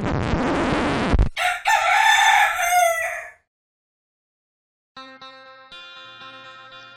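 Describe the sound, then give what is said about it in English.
One loud, drawn-out rooster crow comes right after a burst of noise. Silence follows, then music starts. “I think I just heard a rooster crow.”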